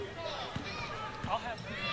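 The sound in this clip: Basketball dribbling during a women's basketball game, a few low, dull thuds of the ball striking the court under a commentator's steady play-by-play and crowd noise.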